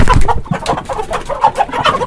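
Hens cluck at a market where poultry vendors sell chickens. The clucks come quick and choppy, many short bursts at a fairly loud level with no pause, and no voices can be heard.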